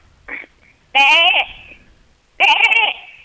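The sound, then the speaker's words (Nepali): A person imitates a goat, giving two loud, quavering bleats with a wavering, nasal tone. A short, fainter sound comes just before the first bleat, and there is a pause between the two calls. “बाख्रा पनि गर्छु दादा”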